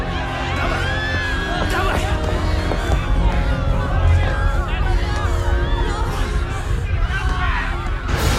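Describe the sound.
Panicked passengers crowd the steeply tilting deck of the sinking Titanic, a continuous dense mass of screams, yells and cries with many voices overlapping at a steady, loud level.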